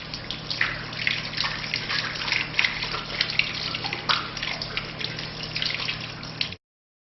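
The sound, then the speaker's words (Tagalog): Water splashes steadily as both hands are washed up to the wrists during ritual ablution. A continuous rushing patter carries a few brighter splashes, then stops abruptly near the end. “Hugasan ang dalawang kamay hanggang pulso ng 3 beses. Unahin ang kanan bago ang kaliwa.”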